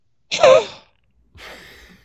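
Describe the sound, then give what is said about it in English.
Breath is pushed out through the mouth in a breathing demonstration: a sharp, loud, breathy rush with a slight voiced edge, then after a pause a longer, softer airy exhale. “Now, when I exhale, that's a full exhale with my nose. Here's one with my mouth.”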